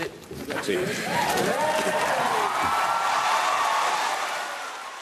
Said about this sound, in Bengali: বিলটি পাশের পর পার্লামেন্টে তাৎক্ষণিকভাবে উল্লাস শুরু হয়ে যায়। অনেকে করতালি দেন, সাধুবাদ জানান, আবার কেউ কেউ গান গান।